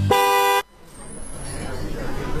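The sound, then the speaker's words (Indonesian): A single car horn toot on a road: a steady, bright, buzzing tone lasting about half a second cuts off abruptly and gives way to a lower, rumbling background noise. “klakson mobil kini juga digunakan sebagai alat peringatan dalam situasi darurat untuk memberikan sinyal kepada pengemudi lain saat berpindah jalur atau akan melakukan pengereman mendadak.”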